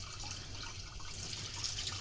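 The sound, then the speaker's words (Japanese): Running tap water hisses and splashes steadily as a Chinese yam is washed under the faucet to remove soil with the skin left on, a soft, continuous wash with no talk. “この皮の香ばしい香りも美味しいので、軽く汚れを取るイメージで洗っていってください。土はね、ちゃんと落としたいのでしっかり洗ってくださいね。”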